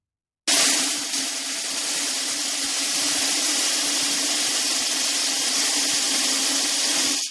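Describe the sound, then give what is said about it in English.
A continuous metallic rattling hiss of 500 BBs pouring into a metal soup pot. It starts abruptly and holds steady and fairly loud for about seven seconds before cutting off. “The sound that you are about to hear is a BB falling into a metal soup pot.”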